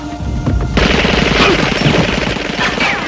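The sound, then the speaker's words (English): Automatic gunfire sprayed inside a basement boiler room: after a few scattered sharp cracks, a loud, rapid, continuous burst of shots begins and keeps hammering without pause, with crashing impacts mixed into the barrage. “Sean sprays bullets everywhere, hitting Watkins in the chest.”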